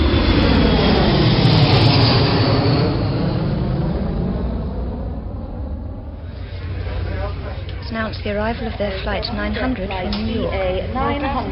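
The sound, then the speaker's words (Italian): Airplane taking off on a flight: a loud, broad engine roar fills the first half, then eases while a voice talks over the continuing rumble. “Te lo dico subito dove stiamo per andare perché il nostro volo decolla!”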